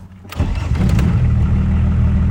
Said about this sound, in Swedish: Det är härligt motorljud i den. Ja, den är sotad lite så man får mycket blickar.